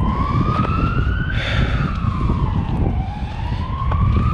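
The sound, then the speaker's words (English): A siren wails loudly and continuously, its pitch sweeping up, then down, then up again, over a steady low rumble. “There's that siren again.”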